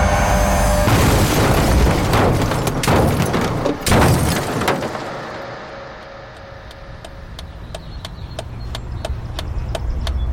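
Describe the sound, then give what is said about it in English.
A violent explosion-like crash during a car wreck, with dense, loud rumbling noise and a sharp hit near the middle, then a fade to a low hum under a steady run of faint, regular clicks. “2, I have it. 1, the world explodes.”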